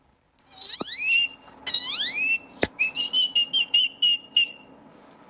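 A person whistles an imitation of a great-tailed grackle's call: a few sharp rising whistled sweeps with a click, then a rapid run of short, high, piercing notes.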